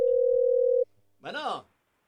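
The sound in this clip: A telephone line gives a steady, even tone for under a second as a call is taken. After a short pause, a brief voice comes on the line.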